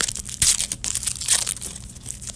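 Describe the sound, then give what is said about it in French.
Aluminium foil is torn off a chocolate egg with crinkling, crackling tears in irregular bursts, some sharper and louder than others, heard without speech. “Bon, ça c'est toujours le problème. Hein? Ça déchire tout le temps. Ça déchire tout le temps. Pas capable de le déballer d'un coup.”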